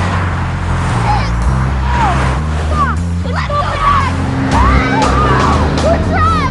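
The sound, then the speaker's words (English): Fast traffic speeding past a central reservation, a steady, loud roar of engines and tyres throughout, with voices over it. “Stuck on the central reservation, they watch the suddenly speeding traffic.”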